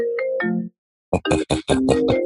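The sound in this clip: A mobile phone ringtone plays as a bright, melodic electronic tune: a short phrase of notes, a brief silence, then several louder choppy notes resuming the melody.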